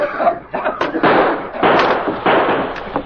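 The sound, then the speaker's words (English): Gas bombs bursting as a radio drama sound effect: several sharp pops that each open into a broad, hissing spray. They come one after another over a few seconds, loud throughout. “Gas bombs for you.”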